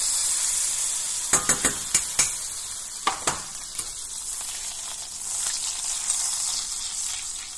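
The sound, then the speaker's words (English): Butter sizzling in a hot medium-sized pan over medium heat: a steady, soft frying hiss with a cluster of sharp crackles and pops early on, then a few more scattered pops, heard alone without talk. “get it hot, over medium heat, not high heat, all right, medium heat, hit it with some butter.”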